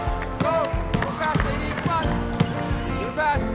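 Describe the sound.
A basketball bouncing during team practice in a gym, many sharp, rhythmic thumps that repeat at a steady pace under ongoing talk.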